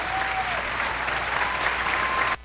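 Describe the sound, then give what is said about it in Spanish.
An audience applauds during a church service with a steady, even wash of many clapping hands that stops abruptly just before the end. “ese aplauso al Señor”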